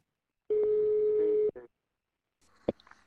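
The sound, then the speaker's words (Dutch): Telephone ringback tone on an outgoing call placed through a Dutch call-recording service: one steady, buzzing mid-pitched tone lasting about a second, followed by a click, a pause and a few faint clicks on the line. “we bellen via Neemop met een van de oprichters, Erik Teusink”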